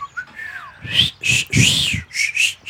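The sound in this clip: Whistling by a person trying to call out to someone on arrival: a few faint sliding tones, then a series of short, sharp, high-pitched whistle bursts in uneven rhythm.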